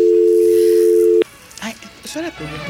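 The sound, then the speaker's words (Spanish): Telephone dial tone after a dropped call: a loud, steady, low-pitched tone holds for just over a second, then cuts off abruptly, and a person begins speaking. “Se cayó esa llamada”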